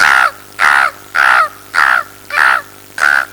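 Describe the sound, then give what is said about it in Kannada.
A human voice imitating a crow cawing: six loud, harsh caws in an even, steady rhythm, each short and nasal with a slight downward slide. “ಕಾಗೆಯ ಕೂಗು.”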